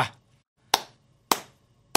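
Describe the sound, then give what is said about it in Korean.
Slow hand clapping: three sharp, loud claps spaced evenly about 0.6 seconds apart, each decaying quickly into near silence, with no talk over them. “박수를 안 칠 수가 없다. 박수를.”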